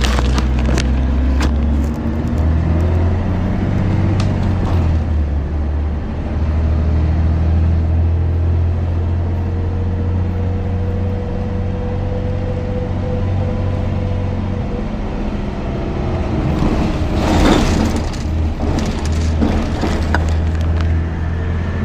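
A low, steady engine rumble fills a ride on a city bus, with a few sharp knocks and rattles and a brief swell in noise near the end.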